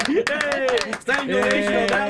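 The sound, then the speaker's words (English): Hand clapping, a fast, steady run of many claps that continues throughout while a voice talks over it. “Yes, I'll clap for that.”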